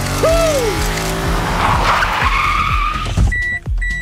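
A car pulling away on a test drive with loudly squealing, skidding tires, the shrill screech sustained over a roaring engine for several seconds before it cuts off.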